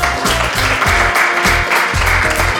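Audience applause welcoming a guest: loud, dense clapping that stays steady and unbroken for the whole stretch.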